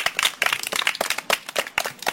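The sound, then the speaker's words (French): Applause from an audience of children on a kids' show, brisk overlapping claps in a steady rapid patter that stays fairly loud throughout, with no talk over it. “Vous êtes formidable, applaudissez-vous vous-même.”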